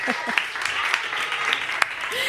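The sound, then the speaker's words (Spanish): Audience applause for schoolchildren who deserve a prize: a steady, dense patter of clapping with a few sharper individual claps standing out, and faint voices underneath. “Dice Marta que merecéis el premio, mira este aplauso.”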